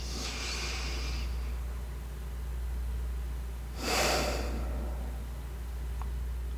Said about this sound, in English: and a calming breath out.